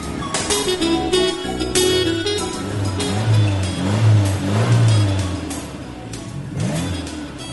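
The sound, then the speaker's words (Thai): A car in traffic starting to move: a continuous, fairly loud engine drone with a tonal hum that swells gently in the middle. No voices. “รถข้างหน้ากำลังเริ่มขยับแล้ว”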